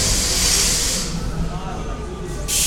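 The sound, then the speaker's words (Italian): A metro train pulls into a station with a loud, steady rush of hissing noise over a low rumble. The hiss eases midway, then bursts back strongly at the end. “Intanto sta arrivando la metro, questo può essere molto suggestivo come suoni”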